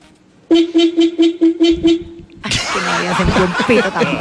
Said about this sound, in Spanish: Uy, pero es un pito de bajo presupuesto. Mi amor, ese pito está bueno, a ver.